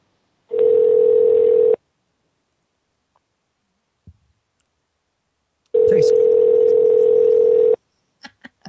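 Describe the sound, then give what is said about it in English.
Telephone dial tone while placing a call: two steady, loud hums separated by a quiet gap holding a faint click, followed by a few brief clicks at the end. “Now dialing.”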